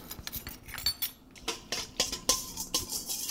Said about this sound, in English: speeding it along with a whisk a little bit.